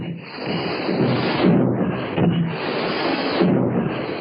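Torpedoes are fired from a warship's tubes, producing dull, thudding bursts and rushing whooshes over a continuous muffled rumble that swells and eases a few times.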